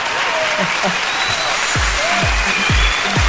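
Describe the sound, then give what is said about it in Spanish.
Sustained clapping from a group, applause for a couple's second anniversary, dense and steady throughout with some heavier low thumps and faint voices mixed in. “Y un aplauso para ellos, por supuesto, hombre.”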